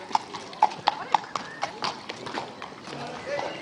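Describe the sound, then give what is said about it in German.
Horses waiting ready for a village procession clip-clop with several sharp hoof strikes close together early on, then lighter, scattered steps, while people talk throughout. “Die Rosse sind schon parat”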